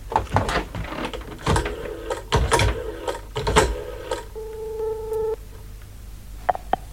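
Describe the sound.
A telephone call being placed: a run of clicks and knocks from the handset and dialing, then a steady electronic line tone for about a second, followed by two brief higher tones.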